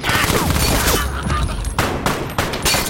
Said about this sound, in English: The fish tank behind Discount explodes as Coach shoots him.